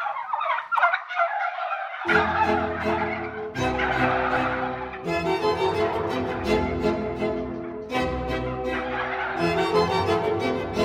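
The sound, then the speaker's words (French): Turkey gobbling, a domestic bird, in a series of loud, rattling, harmonic bursts, with a softer opening call followed by several full gobbles separated by short pauses. “Ce plat, ce nouveau plat, c'est le dindon.”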